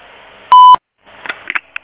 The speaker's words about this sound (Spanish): Si desea, deje su mensaje en la casilla de voz. Después del tono, grabe su mensaje.